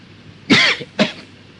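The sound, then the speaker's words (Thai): Two coughs come from a person with an itchy throat: a harsh, louder first cough, then a shorter second one, each standing alone against a quiet background. “ยังเวลานี้ที่จะพูดนี่มันก็คันคอขึ้นมามันก็อยากจะไอเวลาที่จะไอก็ห้ามมันไม่ได้”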